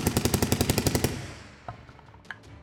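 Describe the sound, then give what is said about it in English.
Rapid machine-gun fire as a full drum of bullets is emptied: a fast, even string of loud, sharp shots for about a second, then a ringing tail that fades away. “as he unloads, and you just see shells exploding out from this thing as he unloads an entire drum of bullets.”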